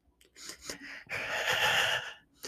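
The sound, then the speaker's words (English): A deep breath drawing in a hit of marijuana: a few short, soft breaths, then one long, loud, airy inhale lasting about a second before stopping. “I'm going to need to take a deep breath and a hit of marijuana.”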